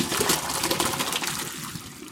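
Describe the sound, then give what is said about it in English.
Boiled potatoes and their cooking water are poured from a pot into a colander: a continuous splashing, gurgling rush of water that starts fairly loud and eases slightly toward the end. “Going to drain these potatoes right into a colander.”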